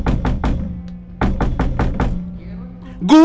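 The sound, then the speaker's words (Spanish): Knocking on a door: three quick raps, a pause, then six more in a rapid run, loud over a faint sustained musical tone, with a voice starting right at the end. “A ver, vamos a golpear acá.”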